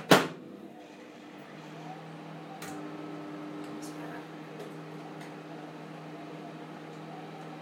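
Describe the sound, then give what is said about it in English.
A microwave's plate rattles where it sits slightly off-centre: a sharp clunk opens, then a steady, faint, buzzing hum with a low rattle carries on to the end. “Hold on, I'm not quite sure why that's rattling like that. Doesn't seem to be any apparent reason for it. I've got the plate slightly to one side.”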